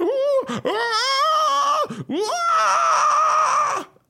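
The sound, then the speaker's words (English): A human voice imitates the screeching of a tortured soul powering an infernal machine: two long, loud, strained wailing cries with wavering, quivering pitch, separated by a brief break and ending in a trailing fade. “as she starts to rev the accelerator, the screeching of the soul gets louder and more tortured. I love the howl of a beautiful infernal”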